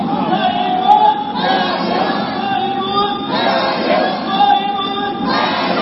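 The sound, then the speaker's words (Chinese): A crowd cheers for Tsai Ing-wen at a Taiwan presidential election vote count, a loud, continuous wash of massed voices that swells slightly at moments. “我们是不是再来喊一下？因为票数即将要冲破500万，我们再给蔡英文加油好不好？”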